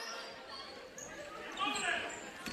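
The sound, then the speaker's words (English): A basketball is dribbled on the court during a girls' high school game, a few bounces heard faintly beneath a commentator's talk and background hall noise. “Takes a couple of dribbles to her right. Bounces it on the right side.”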